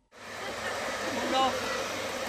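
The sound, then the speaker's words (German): Steady airy whoosh of a hair dryer that children use to blow a ball into the opposing goal on a table-football table at an outdoor energy event at a school. The airflow cuts in abruptly and then holds an even, constant hiss. “Auf einem Töckeli-Tisch versuchen die Kinder, mit einem Föhn den Ball in das gegnerische Tor zu blasen.”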